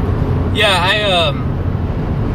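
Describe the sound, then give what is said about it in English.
Interior road noise from a car driving home, a steady low rumble that fills the whole clip, with a brief voice heard over it midway. “Yeah, I'm driving home right now.”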